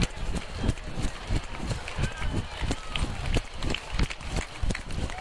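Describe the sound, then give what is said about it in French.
Running footsteps of a runner covering the last metres in an Olympic stadium: many quick, regular footfalls beat steadily under a voice speaking throughout. “Alors là, je suis dans le stade olympique, en train de courir vraiment les derniers mètres.”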